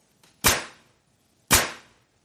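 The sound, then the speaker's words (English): Nail gun firing: two loud, sharp cracks about a second apart, each with a quickly fading hiss, and a faint click just before the first. “What is a nail gun? A nail gun, yes, much bigger than a stapler.”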